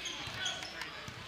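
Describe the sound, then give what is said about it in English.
A basketball is dribbled on the court during a high school game, a few dull low thumps of the ball against the floor under steady crowd noise. “dribbling around the perimeter”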